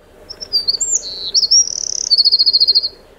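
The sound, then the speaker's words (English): St Kilda wren song: a bright, high-pitched run of chirps and warbling notes that ends in a rapid trill and a string of evenly spaced repeated notes, loud and clear with no other sound. “This is what the St. Kilda wren sounds like.”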